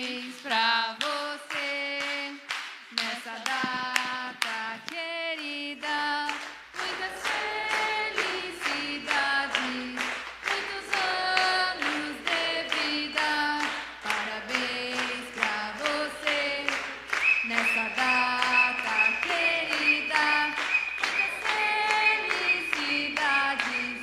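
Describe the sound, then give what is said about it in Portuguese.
Congregation singing Happy Birthday in Portuguese at a church birthday celebration for the reverend, many voices in sustained melody, with steady rhythmic hand clapping that grows fuller after the first few seconds. “Acho que tem que cantar parabéns, né? Espera aí. Então, puxa parabéns aí, gente, que eu não nasci para isso.”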